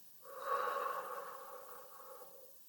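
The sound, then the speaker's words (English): A single long, deep breath during a self-care breathing exercise: an airy, slightly voiced exhale that swells quickly, then gradually tapers off, heard alone without talk. “Let's take a deep breath in. Breathe out. Breathe in. Breathe out.”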